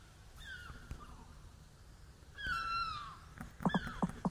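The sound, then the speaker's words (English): A seagull calls faintly in the background, giving a few thin, drawn-out cries that slide downward in pitch, the clearest one about halfway through, over a quiet hiss. “And there's a seagull in the background.”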